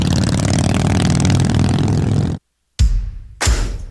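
A custom motorcycle built by Van Wall Power Sports, custom painted and fitted with Mean Machine Cycles parts, revs with a loud, sustained roar. A brief silence follows, then two shorter, punchy throttle blasts.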